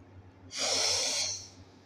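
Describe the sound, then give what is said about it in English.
A single deep breath, drawn in as a breathy, airy hiss that lasts about a second and then fades, heard alone over a low background hum. “I want everybody to take a deep breath with me.”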